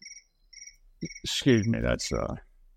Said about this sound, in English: that's the cricket you heard before.